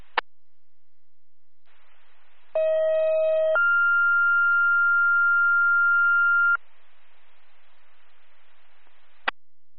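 Fire dispatch alert tones over radio: a short lower steady tone followed by a longer, higher sustained tone, framed by faint hiss and sharp clicks at the start and end.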